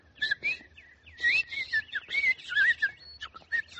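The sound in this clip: Bright, warbling bird chirps come in several quick bursts of high, rapidly twisting tweets, separated by short pauses, heard alone with no talk.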